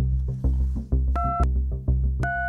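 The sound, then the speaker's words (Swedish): Telephone keypad tones as a number is dialled: two short, clear two-note beeps over a low, throbbing hum, with no talking. “Jag slår ett av numren till Eva Andersson.”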